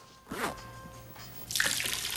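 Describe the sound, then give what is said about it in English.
Running water from a lobby fountain whose plug has been pulled: a soft splashing trickle that swells into a louder, steady hiss for the last stretch. “Austin accidentally pulls the plug on the foyer's fountain”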